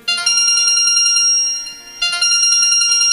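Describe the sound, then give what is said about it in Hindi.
A mobile phone rings after a call is placed from a Jio SIM: a bright, loud electronic ringtone of repeating melodic tones. It dips briefly in the middle before the tune starts again, with no talk over it. “मौगी जियो के SIM ले ले बिया आ phone लगैले बिया”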